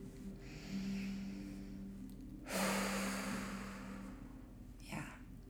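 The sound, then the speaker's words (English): Deep breaths taken slowly by a person sitting with someone who is crying: soft, airy, drawn-out breaths with pauses between them, quiet and with no talking. “I'm actually just gonna take a couple breaths with you here if that's okay.”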